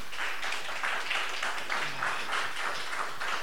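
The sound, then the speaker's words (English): Applause from an audience for a musician: dense, steady clapping that holds at an even, moderately faint level for the whole stretch, with no voices standing out. “Ladies and gentlemen, one more round of applause for Stu Simpson.”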